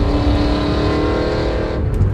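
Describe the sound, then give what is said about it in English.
A car engine revved hard and held at a steady pitch, producing a loud, dense rumbling drone with a constant hum that eases only slightly near the end. “someone's trying to be really cool in their car”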